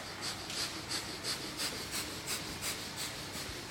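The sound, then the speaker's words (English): Breath of fire, a rapid yoga breathing technique: a steady string of quick, soft, hissing forced breaths at an even, fast pace, faint over constant background hiss. “Everyone close your eyes and begin breath of fire.”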